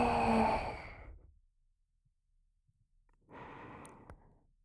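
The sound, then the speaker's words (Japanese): A deep exhale during a guided breathing exercise starts as a strong breathy rush and fades to silence. After a quiet pause, a second, softer breath follows. “深く息を吐いて、”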